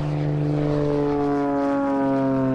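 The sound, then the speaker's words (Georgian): A small fuel-powered propeller airplane takes off with a loud, steady engine drone full of strong humming harmonics, sustained throughout without pause. “ეს ჩვეულებრივ საწვავზე მომუშავე მცირე ზომის თვითფრინავის აფრენის ხმა.”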